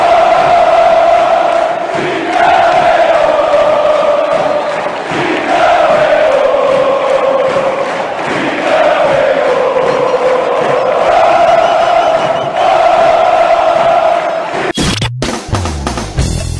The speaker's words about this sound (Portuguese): E a volta de uma clássica música seria muito bem-vinda, com o estádio lotado e cantando